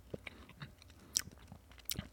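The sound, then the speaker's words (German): Someone bites into a nutty chocolate with a soft filling, giving a few faint crisp crunches and small chewing clicks in near quiet. “Jetzt beiße ich mal rein.”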